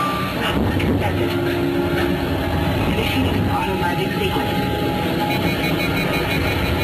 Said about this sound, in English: Navigator, fire rockets for descent now. Rocket fire.